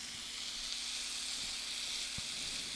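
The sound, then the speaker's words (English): Vegetables and meat sizzle fast in a pan on a stove range turned up high, a continuous even hiss with no talk. “And I've got my range turned up a little high on purpose because I'm trying to get it to cook fast, which isn't bad because you want a little scorch on some of these vegetables.”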